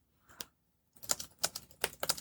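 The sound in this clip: Computer keyboard typing as a college essay prompt is entered into ChatGPT: a single faint keystroke, a short pause, then a rapid run of soft clicking keys.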